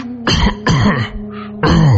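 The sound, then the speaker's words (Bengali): Someone clears their throat in a few rough, rasping bursts with short gaps between them. The sound is loud and close, and there is no speech. “গলা কেশে পরিষ্কার করলেন আর বললেন”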